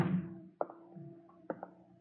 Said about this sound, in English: I'll see that the window is closed